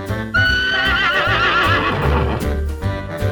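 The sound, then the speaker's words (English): A horse neighs in a long, wavering whinny whose pitch trembles up and down, while a steady clip-clop of hooves runs underneath. “Horse.”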